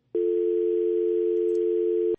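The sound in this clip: Telephone tone of an outgoing call: one steady, mid-pitched tone lasting about two seconds, starting and stopping cleanly and heard alone.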